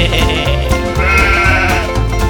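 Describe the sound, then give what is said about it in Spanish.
A sheep gives a wavering, nasal bleat over steady, loud backing music in a children's farm song. “la oveja hace pe”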